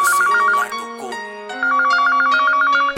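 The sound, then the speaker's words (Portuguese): A mobile phone ringtone plays a loud, warbling electronic melody with rapid repeating trills; it dips briefly midway, then resumes at full strength. “O meu sonho teve fim quando o meu celular tocou.”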